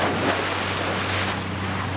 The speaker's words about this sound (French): Il a l'air de faire des grosses vagues, celui-là.